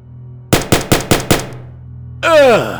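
Gunfire on a street: a rapid burst of five sharp, loud bangs, evenly spaced. After a short pause comes a loud sound with downward-sweeping tones.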